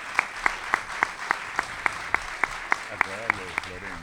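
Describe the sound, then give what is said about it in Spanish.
Clapping welcoming guests to a panel discussion on media and politics: about a dozen sharp, evenly spaced claps in a steady rhythm, with a voice talking over the later claps. “Así que los recibimos con un gran aplauso a Pablo Caruso y Eduardo Aliberti.”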